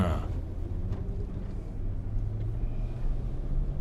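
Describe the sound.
A car drives along with a faint, steady low engine and road rumble that stays continuous throughout, with no clear voices.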